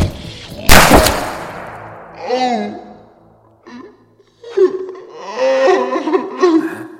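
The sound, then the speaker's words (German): A gunshot sound effect in an audio drama: one loud, sharp blast with a quickly decaying tail. People talk afterward in a lively way. “er hat mir ins Gesicht geschossen”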